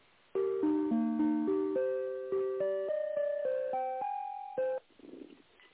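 Telephone tones as a call is transferred: a clear run of electronic beeping notes stepping mostly upward in pitch, then a brief faint rustle.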